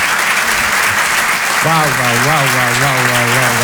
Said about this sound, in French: Je vous demande de l'applaudir très fort, il s'appelle Hassan de Monaco.